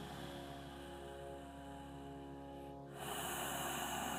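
A single faint breath during a guided self-enquiry meditation: a soft, airy rush of air that turns into a slightly fuller breath toward the end.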